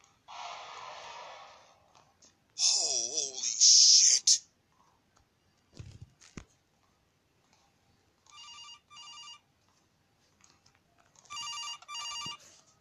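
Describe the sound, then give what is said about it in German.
A telephone rings in a horror video game as two buzzing, warbling ring bursts near the end, after several louder, unrelated game noises earlier on. “muss hier den Anruf annehmen.”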